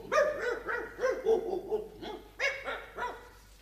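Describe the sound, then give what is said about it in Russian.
Dogs bark at feeding time in a rapid, excited series of many sharp, mid-pitched barks and yelps, loud and without talk. “Пойдемте кормить собак”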